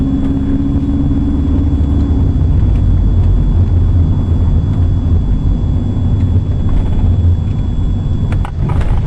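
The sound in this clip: Steady car-driving noise while travelling through the north of a town: a continuous, loud low rumble of engine and road with no talk and no clear breaks.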